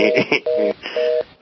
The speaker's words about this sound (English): somebody just, lost the connection or something, and now their phone is going,